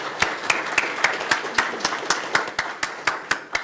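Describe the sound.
An audience applauds to welcome a panel with a steady, evenly spaced series of over a dozen sharp claps.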